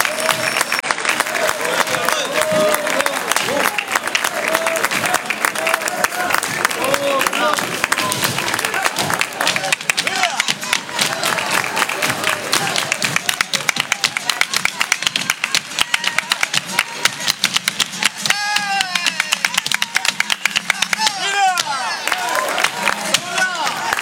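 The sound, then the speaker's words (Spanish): A very loud, sustained round of audience applause fills a flamenco club evening in Manilva, with dense clapping and some cheering throughout and voices mixed in. “Ese fortísimo aplauso.”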